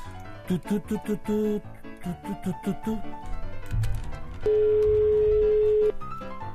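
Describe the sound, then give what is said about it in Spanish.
A telephone rings out while the caller waits for an answer: after a stretch of mixed tonal sounds, one long, steady ringback tone holds for about a second and a half. “Voy a ver, un segundo, a ver si tengo por ahí la llamada pendiente. A ver, vamos a intentar hablar con él, a ver qué es lo que ocurre.”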